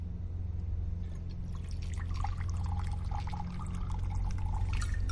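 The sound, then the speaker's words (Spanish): Vodka is poured from a bottle into two glasses, making a continuous trickling, splashing pour with small bright drips. No voices are heard over the liquid. “llena ambos vasos”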